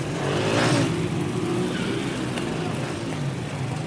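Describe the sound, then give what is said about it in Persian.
Motorcycle engine roaring as the bike sets off on a street after someone running on foot, a loud continuous rumbling drone that swells slightly early on and holds steady without breaks. “اما موتور سوار میبیندش و دنبالش راه میفته.”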